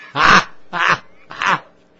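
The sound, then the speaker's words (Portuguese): Dog barking: three loud, harsh barks spaced evenly apart, each short and raspy, with quiet gaps between them. “Cachorro!”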